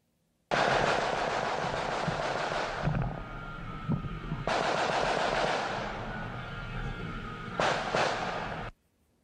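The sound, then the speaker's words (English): Semi-automatic gunfire in harsh, loud bursts: three long stretches of rapid cracks run together, separated by short gaps, with no voices. “Now, that is the sound of semi-automatic gunfire.”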